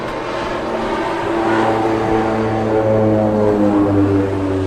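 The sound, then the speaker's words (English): Low, rumbling engine drone of a Boeing 747 flying near Mackinac Island Airport in fog, a steady hum with a deep sustained tone that swells a little and then holds. “It was a 747. We didn't know the Mackinac Island Airport was so busy.”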